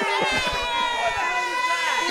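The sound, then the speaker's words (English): A comedy audience boos, a sustained, droning mass of many voices with some scattered crowd noise mixed in, holding at a steady level. “I know who's booing. It's a very like high class audience.”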